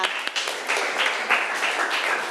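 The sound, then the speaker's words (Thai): Students in a classroom clap for a classmate: a short round of moderate applause with several distinct, sharper claps standing out from the steady patter, holding level to the end. “ากปรบมือให้เพื่อนหน่อยค่ะ”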